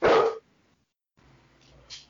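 A single loud dog bark bursts out at the start, then gives way to a quiet, low rumbling background with faint scattered sounds.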